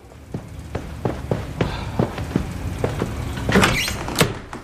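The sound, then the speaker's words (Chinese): Door sounds: a run of sharp, fairly evenly spaced wooden clacks and knocks, with a few louder rattling hits near the end and no voices. “赶紧开门。”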